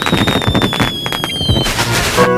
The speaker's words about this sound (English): It's fireworks.